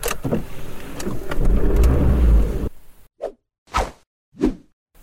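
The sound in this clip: A car engine gives a low, rough rumble that swells for a couple of seconds and then cuts off. Three short, separate whooshes follow.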